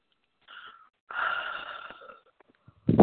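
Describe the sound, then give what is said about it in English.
A person takes a deep breath: a brief first intake, then a longer, raspy, slightly wheezy inhale that gradually tapers off. A louder sound starts abruptly at the very end. “Take a deep breath.”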